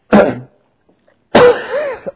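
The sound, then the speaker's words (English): Two rough, loud coughs from a person: a short first burst, then after a pause a longer, rougher second one that trails off raspily. “cough here. Pardon me.”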